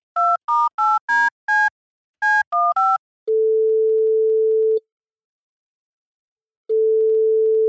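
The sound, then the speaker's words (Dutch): Telephone line tones while placing a call: eight quick touch-tone dialing beeps of varying pitch, then two long, steady ringing tones separated by a pause, with no voices. “Zullen we kijken of we Arno Arts kunnen bereiken? Laten we proberen te bellen.”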